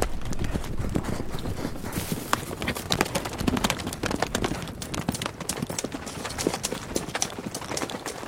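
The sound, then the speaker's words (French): Horses galloping, many rapid hoof beats drumming in a dense, steady, fairly loud rhythm with no voices. “Ils enfourchèrent leurs montures et partirent au galop.”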